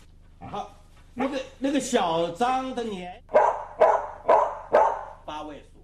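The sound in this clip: A dog barks a string of loud, sharp, bright barks after several longer, wavering yelping cries, each bark short and punchy with small gaps between them.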